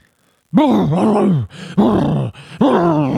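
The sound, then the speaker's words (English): A man's voice imitates a creature's rough, forceful exhale, meant to sound like a mix of a boar and a man: three loud, throaty groaning bursts separated by brief breaks. “If you're all wondering, that's what the combination of a boar and a man sounds like.”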